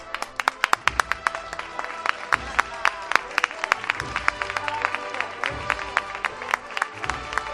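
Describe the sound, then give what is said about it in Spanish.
A street crowd on Calle Feria applauds the Señor de la Paz procession as the costaleros carry the float through a light drizzle. Many sharp individual claps rise out of a steady, continuous round of applause. “Aplausos aquí en la calle Feria. Repito, un esfuerzo muy grande de los costaleros.”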